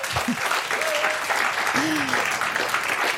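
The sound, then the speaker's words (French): Audience applause at the Le Livre sur les quais book festival in Morges, a dense, steady patter of clapping with a few brief voices rising over it. “On est en direct du livre sur les quais à Morges. Si, si, je vous assure, entendez le public.”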